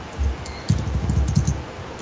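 Typing on a computer keyboard: a quick, uneven run of many soft key clicks, heard alone without talk.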